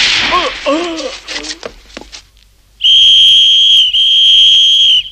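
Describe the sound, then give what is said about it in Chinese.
A whistle sounds as a signal in a radio drama, blown by a German captain: one long, shrill, steady high-pitched blast lasting about two seconds with a brief dip midway, following a stretch of quieter, mixed sounds. “埋伏在清真寺钟楼上的德国兵一听比肖夫上尉的口哨声，立刻用机枪向谢德扫射。”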